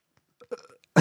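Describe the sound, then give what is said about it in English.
A grown man gives one short, deep, loud burp at the very end, after a few faint, soft mouth and body noises. “I'm just going to pat you back until you burp.”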